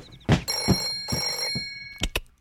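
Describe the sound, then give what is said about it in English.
A clubhouse telephone rings in two bright, metallic bell bursts, mixed with a few dull thumps before and after. “Clubhouse phone? Clubhouse phone? Huh? Oh, Clubhouse phone, I got it.”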